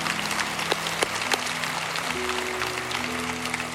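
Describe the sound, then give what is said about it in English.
A church audience applauds after a prayer, a dense, steady wash of many hands clapping at even loudness throughout. “Would you put your hands together and congratulate the people who just prayed that prayer? That'd be great.”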